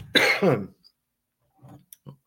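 Throat clearing and coughing from one person: a strong, harsh burst at the start, then a few fainter, short coughing sounds after a pause.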